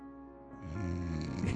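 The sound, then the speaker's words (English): A deep cleansing breath exhaled loudly through the throat, swelling after half a second into a rough, snore-like rasp with a low buzzing tone, fairly quiet overall. “I thought that was supposed to be a cleansing breath.”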